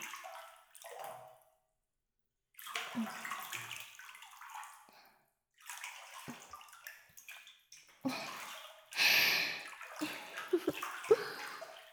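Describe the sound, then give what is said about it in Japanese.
Bathwater sloshes and splashes as a person soaks in a hot bath. Quiet, intermittent movements are broken by brief silences, and a few louder splashes come near the end. “お疲れ様。あとはお湯に浸かってゆったりリラックスするだけだぞ。”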